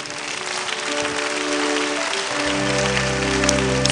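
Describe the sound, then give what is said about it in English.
Audience clapping during a church sermon, a dense, steady wash of applause that holds at an even level throughout, with sustained low musical tones joining partway through. “Give me one reason why you are not clapping.”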